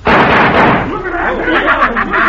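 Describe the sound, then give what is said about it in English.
Loud, sharp gunfire bursts from a pistol shooting a tossed poker chip in a western scene, a dense blast at the start blending into a ringing decay, with voices talking afterward. “Cisco shoot that poker chip three times before the pieces hit the floor.”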